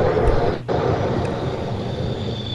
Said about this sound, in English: The hell was that? F-15 fighter pilot flying over Mako-chan's house.